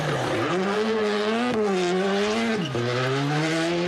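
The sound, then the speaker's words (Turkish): Rally car engines race at the Turkish Rally Championship in Nevşehir, Cappadocia: a loud, continuous harmonic engine drone that holds steady, then dips and climbs back in pitch a few times as the car shifts and accelerates. “Pazar günü Nevşehir'de Türkiye Ralli Şampiyonası vardı. Kapadokya'nın eşsiz manzarasında yapılan rallide pilotlar birinci olabilmek için direksiyona geçti.”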